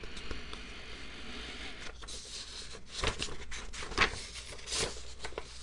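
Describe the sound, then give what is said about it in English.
Sheets of paper rustle and shuffle under a steady low hiss, with a few sharper swishing bursts toward the end. “Am I shuffling the papers enough? To be fair, I should let you guys know that I have employed a paper shuffling team to make these noises,”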